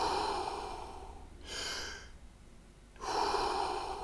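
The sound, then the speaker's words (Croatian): Deep, slow breaths in and out during a guided breathing exercise, heard as long airy rushes of breath separated by a quiet pause, with no talking. “potpuni udah i pustite ga van. Udah i trbuh prsa i van.”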